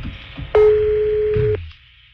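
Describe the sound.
A telephone ringing on the line as a call goes through: one steady, clear electronic tone lasting about a second, then quiet.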